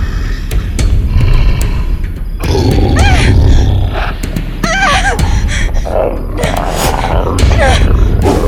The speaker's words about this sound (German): Dafür ließ ein Brüllen sie nun herumfahren.